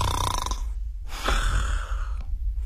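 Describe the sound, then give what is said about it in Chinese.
A voice imitates the snoring of an elderly man who has dozed off after drinking and tiring himself out: a few long, rasping, breathy snores, loud and alone, with a short pause between them. “这都呼噜上了，好吗？老师睡着了。”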